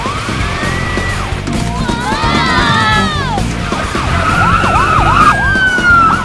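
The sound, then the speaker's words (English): Police car sirens wail as a line of police cars speeds down a street, several overlapping wavering, rising and falling tones sounding loudly over a low rumble of traffic. “A line of police cars fly down the street.”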